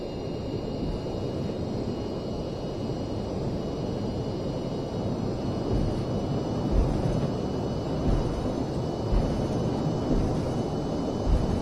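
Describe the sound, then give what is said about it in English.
Airliner engines at takeoff thrust in a flight simulator game make a steady, broad roar with a thin high whine on top. The sound is moderately loud and stays even, with slight swells near the end. “Apply full thrust. Roger. Applying takeoff thrust.”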